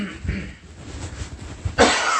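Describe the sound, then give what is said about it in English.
A person coughs while choking mid-sentence, with a couple of rough, breathy bursts, the last one loud and abrupt, separated by quieter throat sounds. “Excuse me, choking on my own irony of it.”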